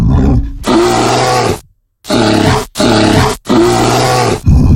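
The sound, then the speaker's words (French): A brown bear growls in four long, loud, rumbling roars separated by short silent gaps. “Un ours. Et c'est une bonne réponse. Quelle couleur cet ours? Un brun, celui-là.”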